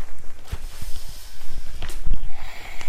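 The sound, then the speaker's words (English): Forceful exhales through the nose during a yoga plank, a few short, breathy snorts standing out against quieter background movement. “Back to plank we go. Exhale at plank.”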